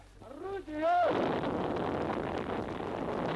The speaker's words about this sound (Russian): Огонь! Первое готово! Первое орудие! Это происходит в 1943 году на одной из батарей в момент подготовки к прорыву блокады.